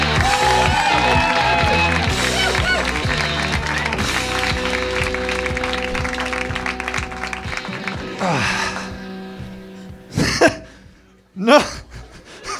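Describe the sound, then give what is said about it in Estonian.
Audience applause at a live stand-up comedy show. Dense clapping runs over a beat-driven music bed for about eight seconds, then thins into a few scattered, louder bursts toward the end. “Teeme aplausi veel Ardo Asperg.”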